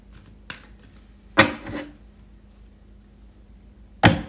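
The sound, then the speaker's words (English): Tarot cards being shuffled and drawn, a few brief papery slaps and riffles separated by quiet pauses. “Give me three cards and show me what happened to Lefty SM here.”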